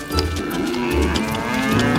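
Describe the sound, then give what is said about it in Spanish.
Cattle mooing: a few low, drawn-out moos rising out of a steady, noisy background, with no talking. “Como le había mandado su padre, Krishna desató las vacas y las llevó a pastar cerca de la jungla.”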